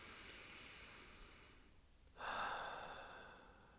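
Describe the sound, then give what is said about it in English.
A single deep, comfortable breath taken as a relaxation demonstration: a faint, airy rush that begins partway through and slowly fades, after a soft high tone dies away. “Lie or sit down and start taking deep, comfortable breaths. Like this.”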